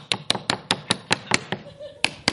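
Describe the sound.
Someone taps a knuckle on real glass, not plexiglass: about ten sharp, bright taps in a steady rhythm, then a short gap before the last two.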